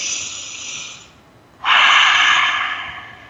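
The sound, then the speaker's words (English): Deep breaths drawn in, a soft airy rush followed after a short pause by a louder, longer breath, heard alone without talk. “Let's breathe that in together.”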